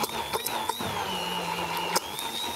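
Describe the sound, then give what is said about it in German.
Steady motor whine of an immersion blender pureeing a light, creamy tuna sauce with a splash of vinegar, its high tone wavering slightly while a few soft clicks and knocks cut in. “Jetzt das wichtigste Gerät in der Küche, da ist es, der Pürierstab. Und dann wird das Ganze jetzt mal fein püriert.”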